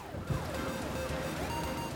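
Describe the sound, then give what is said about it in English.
Police sirens wailing outside a building, heard from the second floor as a faint, continuous tone that sweeps up and down in pitch. “you can hear and see police sirens like lighting up outside the building.”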